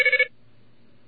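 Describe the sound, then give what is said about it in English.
Payphone coin tones for two quarters dropped into a payphone: a quick burst of several sharp, high electronic beeps in rapid succession, then near silence with only a faint low hum. “That's the sound of two quarters going into a payphone.”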